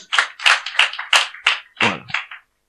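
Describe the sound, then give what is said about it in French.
A church audience claps together to acclaim the Lord: a short burst of rhythmic unison hand claps, several quick strikes in a row, ending abruptly. “Si on a compris, on acclame le Seigneur.”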